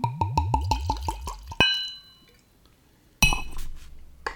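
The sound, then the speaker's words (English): Six-year-old Sazerac rye whiskey pours from a long-necked bottle in a rapid, even run of hollow glugs. Two bright glassy clinks follow, separated by a short quiet gap. “Let's get into this rye. Sazerac rye, 6 years old. Let's get the pour.”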